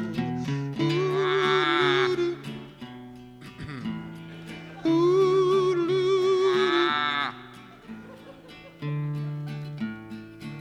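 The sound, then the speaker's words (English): A person bawls like a sick calf, giving two long, drawn-out wavering wails over steady sustained tones beneath. “You were over there bawling like a sick calf. Well, there's a sick calf in the portrait.”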